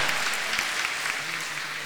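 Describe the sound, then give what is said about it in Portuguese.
Applause from an audience welcoming the image of Our Lady of La Salette at a religious celebration. The clapping is dense and steady, holding at an even level throughout with no break. “Acolhemos com uma salva de palma forte, bonito, Nossa Mãe, a Virgem da Salete.”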